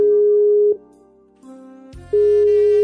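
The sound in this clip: A telephone tone sounds as an outgoing call is placed: a steady tone breaks off into quieter, shifting tones, then a buzzy burst, and the steady tone returns.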